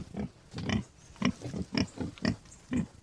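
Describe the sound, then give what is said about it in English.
Low, rough grunts from farmed boar in their run on a farm near the Kilkenny–Waterford border. The grunts come in a quick, uneven series of short, throaty bursts at moderate loudness. “Micheál Hanrahan farms boar near Lister Lynn on the Kilkenny-Waterford border, and he let me get up close and personal with his stock.”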